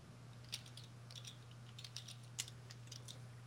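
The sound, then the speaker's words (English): Soft clicks of a computer keyboard as a username and password are typed, a few sparse, irregular keystrokes with small pauses between them, faint over a steady low hum. “And it's going to ask me for a username and password. So I'm going to put in the same thing.”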